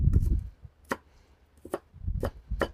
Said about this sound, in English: I might just get a little slice of onion here. Not a giant onion guy, but fresh onion's okay.